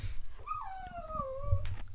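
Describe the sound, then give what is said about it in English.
A dog whimpers in one long, thin, nasal whine that slides slowly downward in pitch before breaking off, heard over a low, steady background rumble. “the dog is not happy with me either. Are you not happy with me?”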